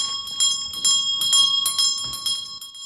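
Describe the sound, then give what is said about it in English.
A wall-mounted bell rings loudly and on its own, a bright metallic clatter that comes in several rapid bursts with sustained high ringing tones between them. “A bell on the wall begins to ring.”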